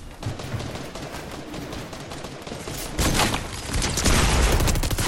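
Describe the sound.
Automatic gunfire sprays from an Asgard weapon in the Fortnite video game. Fast, continuous bursts crackle throughout, growing noticeably louder and denser in the second half.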